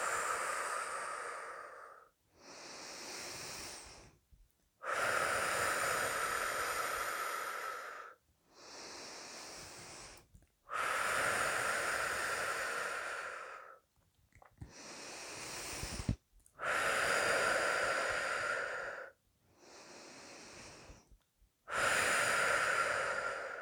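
Slow, deep breathing moves steadily in and out in long, even cycles, many breaths in a row, each inhale and exhale loud and airy with short pauses between them.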